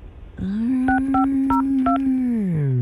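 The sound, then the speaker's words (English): Telephone keypad tones as a number is dialed: four short two-tone beeps, evenly spaced, sounding over a steady low drone that slides downward near the end. “I started dialing the number.”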